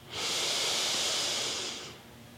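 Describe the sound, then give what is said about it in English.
A deep breath drawn in during a guided breathing and affirmation exercise: one long, steady, airy inhale lasting nearly two seconds, fairly loud and even, then easing off, with no talking. “Big breath in.”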